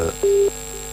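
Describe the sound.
A single short telephone tone sounds as a call comes in, a steady mid-pitched note lasting about a quarter second over a faint constant hum.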